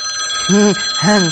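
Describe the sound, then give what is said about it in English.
A telephone rings in two short warbling electronic bursts with a brief gap between them, loud over a steady background hum. “No, that's just the phone ringing.”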